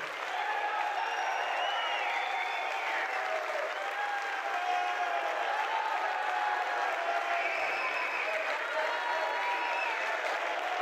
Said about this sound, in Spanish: Que no pare el aplauso.